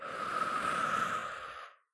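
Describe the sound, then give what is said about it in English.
A slow, breathy exhale during a guided breathing exercise: a soft, steady rush of air that holds for over a second, then tapers off into silence. “Breathe in. I get to choose my reality. Breathe out.”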